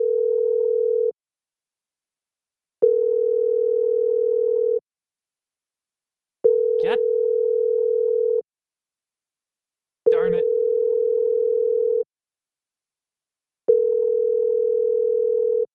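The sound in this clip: Telephone ringback tone from an unanswered call: a steady low tone sounding five times in bursts of about two seconds, separated by short silences, with a couple of brief clicks between them.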